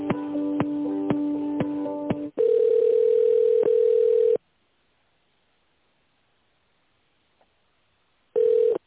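Telephone line tones play while an office call is transferred to the accounting department. A pulsing, buzzy tone pattern gives way to a steady tone, then a long silence follows, and the tone briefly returns at the end.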